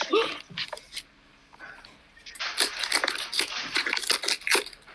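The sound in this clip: Wrapping paper tearing and crinkling as a present is unwrapped, with rough papery bursts that grow busier and louder through the second half.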